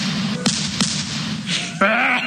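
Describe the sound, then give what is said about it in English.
Shotgun blasts come as a few sharp, whip-like cracks over a steady background hum. The last crack is followed by a wavering tonal sound. “I'm going to take my shotgun and shoot you here”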